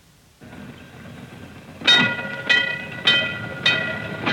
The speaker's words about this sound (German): Das ist die Straßenbahn.